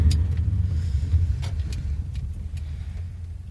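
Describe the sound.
Low rumble of a car engine as the car drives and then pulls up at a parking lot, holding a steady deep drone that slowly eases in loudness.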